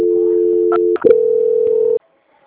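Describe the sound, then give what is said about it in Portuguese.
A telephone line tone plays during a call transfer: a steady electronic hum, a brief clicking break, then a second steady tone at a slightly higher pitch that cuts off abruptly into silence. “Eu vou só transferir para a Michelle, tá? Ela vai finalizar a segunda parte. Só um momento.”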